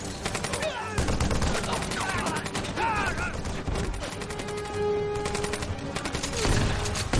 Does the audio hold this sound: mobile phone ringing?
no